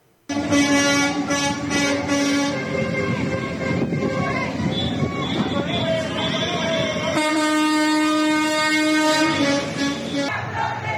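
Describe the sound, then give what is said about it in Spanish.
Car horns honk in heavy traffic on the toll-booth approach roads into Mexico City. After a brief quiet start, many long, overlapping honks blare loudly and almost without a break. “escuchamos ahí los claxons”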